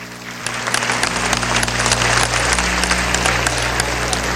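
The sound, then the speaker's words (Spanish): An audience at a public gathering applauds a named guest. Dense, steady clapping rises in after about half a second and stays loud and even throughout, over a low constant hum. “un aplauso a Ernesto Villegas Poljá”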